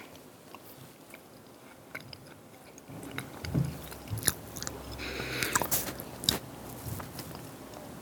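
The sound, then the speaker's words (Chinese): Quiet crunching and chewing as a church audience eats communion bread, with many small bites and crackles that grow somewhat louder and busier partway through. “这饼代表主耶稣基督的身体，为我们舍的。让我们在吃的时候，我们一起纪念他为我们舍身，我们一起来领受。”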